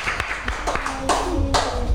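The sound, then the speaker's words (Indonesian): Applause for a young child, sparse and irregular hand claps rather than a dense ovation, with a few sharp bursts spread across two seconds and voices murmuring underneath. “Oke, tepuk tangan untuk Azriel.”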